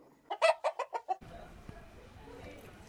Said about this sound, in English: we are seeing very much chicken outside and one black cat is inside.